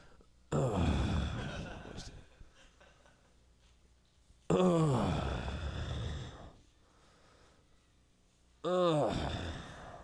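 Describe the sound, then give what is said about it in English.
A man's voice imitating someone breathing heavily in a bathroom stall at work: three long, loud, raspy breaths, each a couple of seconds, separated by quiet pauses. “some guy walks in, he starts breathing just like really just like heavily, and he's just like”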